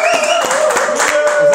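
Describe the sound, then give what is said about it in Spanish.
Applause called for by a host, with several distinct sharp hand claps over a sustained voiced tone, loud and lively for a brief moment. “Aplauso, por favor, querido.”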